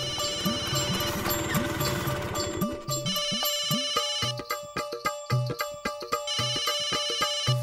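A mobile phone rings with a melodic electronic ringtone: bright tonal notes and soft percussive beats repeat in a looping pattern for several seconds, loud and alone with no voices.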